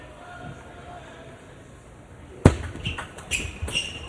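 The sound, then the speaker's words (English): A table tennis ball flies off a racket on a heavy topspin shot during the Golden Game of a match. One sharp crack rings out after a quiet stretch, followed by a few lighter pops. “And that ball goes flying off Andrew South's racket. A lot of topspin rotation there on the shot from Kai Jung.”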